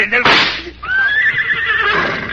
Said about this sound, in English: The horse! He's run away, the horse, to the jungle!